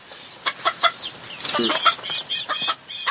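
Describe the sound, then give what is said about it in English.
Chickens cluck on a 25-acre chicken farm, with short, high clucks coming in an irregular, fairly busy stream. “I got a 25-acre chicken farm.”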